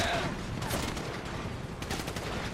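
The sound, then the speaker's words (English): Gunfire in a shooting video game, a dense, continuous crackle of rapid shots with brief sharper bursts throughout, without talk. “someone is shooting at you, so apparently they did get up there”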